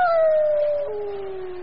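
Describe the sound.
A dog howls once on an island, a long, mournful, fairly loud tone that slides steadily downward in pitch.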